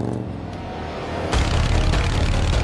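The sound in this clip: A motorcycle carrying two riders pulls away on an empty street at night, the engine noise jumping sharply louder partway through and holding a broad, rough roar as it accelerates.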